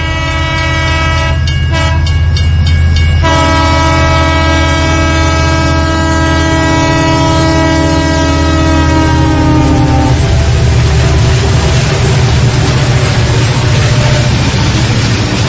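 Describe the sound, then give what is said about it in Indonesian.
A long train with several carriages rumbles past loudly, its horn blaring in steady tones for about ten seconds before the blast gives way to continuous heavy rolling noise. “Ada kereta datang. Tak berapa lama, lewat sebuah kereta dengan beberapa gerbong yang cukup panjang.”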